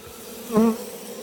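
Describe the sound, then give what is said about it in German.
Honeybees buzzing at an opened hive: one short, raspy buzz swells and fades over a low, continuous background drone. “Dadurch beruhige ich die Bienen ein bisschen. Also ich finde das jetzt nicht so beruhigend. Ja, die ist nur ein bisschen aufgeflogen.”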